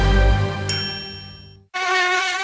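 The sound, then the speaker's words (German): Buzzing mosquito: a thin, sustained harmonic whine that slowly fades, breaks off briefly, then returns as a brighter, steady drone. “Die lästigen Mucken. Einen hat man da stochen.”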